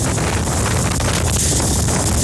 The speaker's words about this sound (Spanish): Está muy, muy fuerte el viento. Oye, impresionante el viento ahí en el sector de Flamenco, que nos mostraba un video ahí nuestro amigo